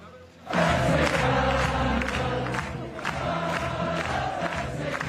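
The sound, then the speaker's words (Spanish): A Dutch crowd cheers Spanish golfer Carlota Ciganda at the Solheim Cup. The loud roar of many voices rises suddenly after a brief quiet start and holds steady to the end, with shouts breaking through. “Así, con Carlota Ziganda, aclamaba el público neerlandés a la Navarra, una de las grandes protagonistas de la Solheim este fin de semana.”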